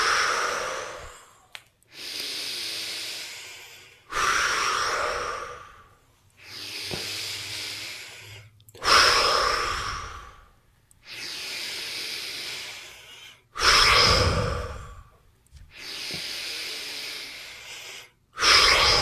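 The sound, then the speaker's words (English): Slow breaths drawn in through the nose and let out again during a guided breathing exercise, many airy, hissing breaths of a few seconds each, rising and fading with short quiet gaps between them and no talk. “go ahead and inhale through your nose. Exhale.”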